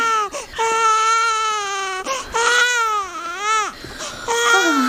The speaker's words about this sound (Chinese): 孩子都哭成这样了，你也不管一管？